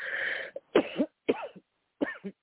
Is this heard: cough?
yes

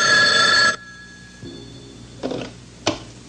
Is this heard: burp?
no

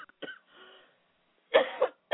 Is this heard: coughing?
yes

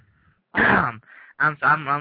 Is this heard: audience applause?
no

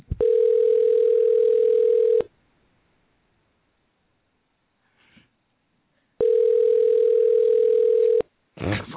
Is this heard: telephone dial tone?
yes

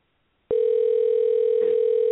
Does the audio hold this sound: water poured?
no

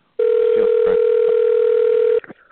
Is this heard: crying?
no

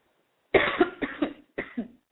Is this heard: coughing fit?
yes

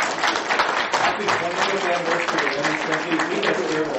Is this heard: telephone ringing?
no

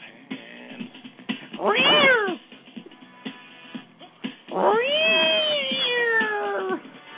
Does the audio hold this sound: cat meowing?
yes

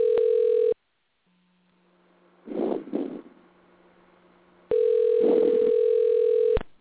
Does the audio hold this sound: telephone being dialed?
yes

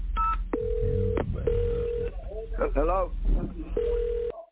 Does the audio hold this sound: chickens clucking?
no

